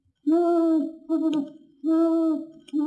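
Owl hooting as it lands on a branch: four long, steady, low hoots separated by short gaps, the last one cut off, loud and clear with no other sound.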